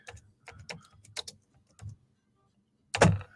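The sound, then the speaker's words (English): Typing on a keyboard: quick clusters of light clicks in short bursts with brief pauses between them, ending with a louder clattering burst of keystrokes. “Let me just type it in here again.”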